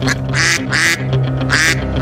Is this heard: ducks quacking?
yes